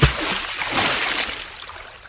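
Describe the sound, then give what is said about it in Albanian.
Splashing water as a folded cloak strikes the Jordan River, a broad wash of noise that begins with a quick hit and carries on as sustained sloshing and rushing, slowly fading. “Elia mori pelerinën e tij, e palosi dhe goditi ujërat”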